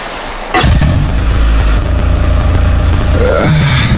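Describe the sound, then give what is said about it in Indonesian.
A motorcycle engine starts up abruptly after a brief quiet moment and runs loudly and steadily, with a constant rumbling drone that continues to the end. “siapa itu suara motor tadi itu?”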